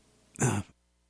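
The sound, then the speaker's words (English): A single short, harsh cough, fairly loud and alone, with quiet before and after it. “excuse me, I had to cough there for a sec.”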